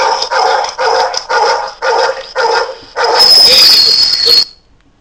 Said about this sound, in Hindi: आप लोगों ने देखा कि किस तरीके से ये कुत्ता मैथ का टीचर रहा होगा शायद पिछली बार।